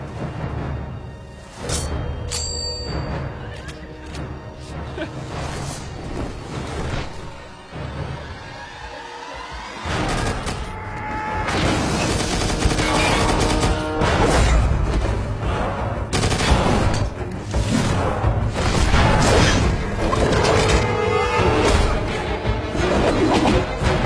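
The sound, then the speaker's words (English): A movie battle scene in which Michael fights the winged Gabriel roars with sustained, loud gunfire and machine-gun bursts, mixed with crashes and heavy thuds throughout. “Here's a short clip from that movie of Michael battling with Gabriel. Gabriel has the wings.”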